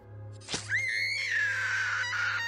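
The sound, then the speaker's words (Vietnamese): A terrified scream in a horror scene where a classmate is stabbed in the forehead with a knife: a sharp outburst, then a sustained, high, wavering cry that lasts about two seconds over a steady low hum. “Tiếng hét vang lên kinh hãi khiến cô Hương giật mình.”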